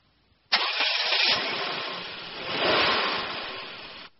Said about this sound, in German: Das ist ein Sportwagen. Bitte? Ist der Porsche ein Sportwagen?